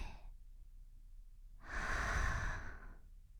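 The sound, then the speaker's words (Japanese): A person breathing in and out slowly: a brief breath at the start, then one long, airy breath that swells and fades. Soft and faint, with no talking. “息を吸って吐いて”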